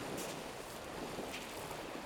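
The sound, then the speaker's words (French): Gentle sea waves spread across the flat sands of the Mont-Saint-Michel bay as the tide goes out, a faint, even wash of water hiss with soft surges and no voices. “T'as la sensation que les, vagues s'étalent plus en fait. Et puis elle récupère l'eau comme ça, et puis elle se répand.”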